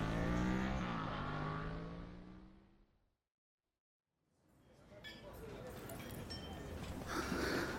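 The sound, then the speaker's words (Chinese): A motorcycle engine runs as it is ridden, a loud droning rumble that dies away to silence and then builds again with a rushing, roaring noise. “从哪儿学的骑摩托啊？偷学的？”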